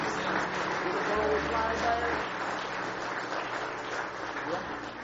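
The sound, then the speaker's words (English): A church audience clapping hands in praise: an even, continuous wash of applause at moderate loudness, with a low hum underneath for part of it. “Give Him one more hand clap of praise tonight.”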